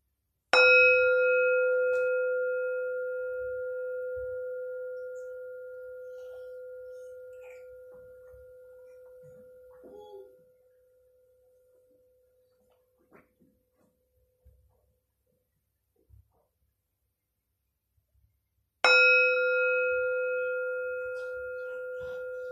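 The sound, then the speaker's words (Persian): A meditation bell is struck twice, each strike giving a clear, sustained ringing tone that fades slowly over many seconds. A long near-silent stretch with a few faint clicks separates the first ring from the second, which comes near the end. “اجازه بدین لحظاتی با فرکانس این زنگ افکار پراکنده از ذهنتون دور شه.”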